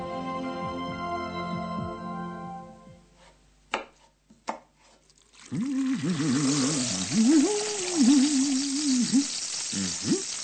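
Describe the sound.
Kitchen cooking sounds include a few sharp knocks like chopping, then a steady hiss under a wavering tonal melody.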